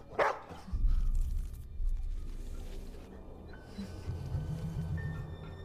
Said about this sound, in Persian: چی شده؟ چیزی حس میکنی؟ برای این پارس میکردی؟